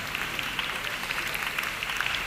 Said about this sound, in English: Let's bring him on with a big round of applause.